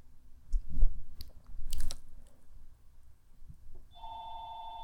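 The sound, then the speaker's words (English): A telephone rings with a steady electronic tone near the end, after a stretch of crunchy, chewing-like noises. “That's a phone ringing.”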